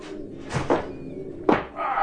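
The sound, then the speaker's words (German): Heavy thuds and a door banging as a sturdy sailor, carrying a heavy chest on his shoulders, stomps through the door into an inn's taproom: a few loud, irregular impacts with quieter rumbling between them. “An einem späten Februarabend polterte ein stämmiger Seemann mit einer brandroten Narbe quer im Gesicht und einer schweren Kiste auf den Schultern durch die Tür der Gaststube.”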